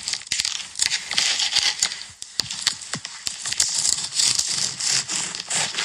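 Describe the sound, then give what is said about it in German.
Bread being cut gives a crackly crunching and crumbling, with many uneven rasping strokes in quick succession, fairly loud and with no voices. “Ja, und zwar, es ist äh, Schneiden von Brot.”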